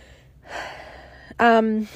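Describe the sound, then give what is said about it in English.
A deep breath taken mid-talk: a long, airy inhalation, then a short voiced sound with clear tone. “just taking a breath”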